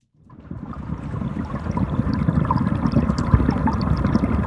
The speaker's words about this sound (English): Hear that? Yes, it's the sound of water, but it's not just any water. That's what the Chicago River sounds like.